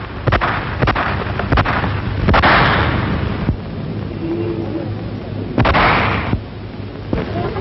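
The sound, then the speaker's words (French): Gunfire marking the first shots in Paris during the August 1944 liberation: a few sharp bangs and louder bursts punctuate a dense, continuous rumbling noise throughout, with no speech. “Et soudain claquent les premiers coups de feu.”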